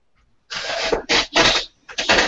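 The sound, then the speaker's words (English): A small laptop fan running as the laptop heats up, a breathy whirring hiss that starts and stops in several short, fairly loud bursts. “It was just a little fan. My laptop's getting hot.”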